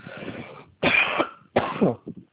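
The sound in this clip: Dry, harsh coughing from a dry, irritated throat linked to rhinitis: three strong, raspy bursts, followed by a few brief softer ones, with no talking.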